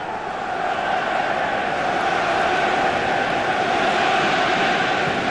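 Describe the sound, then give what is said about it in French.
Sunderland football crowd roaring at the Stadium of Light, a dense, loud wall of voices that holds steady for the whole stretch without breaks. “Et le public de Sunderland donc, qui donne de la voix. Oui, tout à fait. Du Stadium of Light.”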